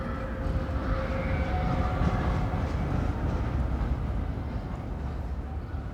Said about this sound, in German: schrie ich in den Lärm der vorüberfahrenden Straßenbahn